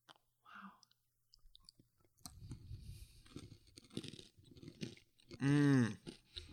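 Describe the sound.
Chewing and soft crunching while tasting a food, quiet irregular bites and mouth sounds, then a loud appreciative hum; brief voices appear around the chewing.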